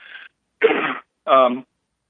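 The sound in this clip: Someone with a dry throat clears it in three short, rough bursts separated by silence, the last burst more voiced and throaty.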